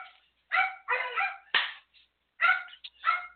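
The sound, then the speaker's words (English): Dogs barking in a rapid burst of many sharp, high barks and yips, loud and close together, with brief pauses between groups and no talking. “And there go my dogs.”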